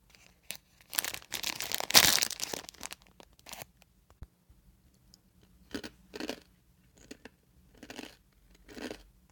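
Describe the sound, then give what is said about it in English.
A bag of chips crinkles and tears open in a loud, dense burst of rustling, followed by a few separate crunchy bites and chewing at intervals, with no talk. “Let me just sit next to you on the sofa then and then open up this bag of delicious chips.”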